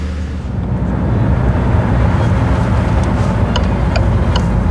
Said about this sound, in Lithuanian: Autobusiukas įsuka į pilkai baltų daugiabučių namų kiemą.